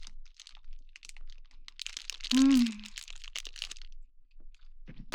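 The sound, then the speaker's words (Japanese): Eating a Ministop salmon onigiri produces soft crinkling and crunching in scattered bursts, with a brief voiced murmur in the middle of the chewing. “ミニストップのおにぎりの鮭いただきます。”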